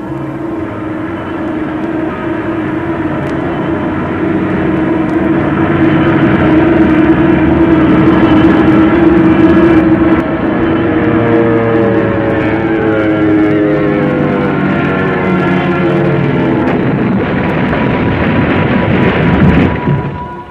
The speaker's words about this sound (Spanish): El Bristol, al tomar tierra, rompió sus alas estrellándose con una alambrada, destruyéndose también el tren de aterrizaje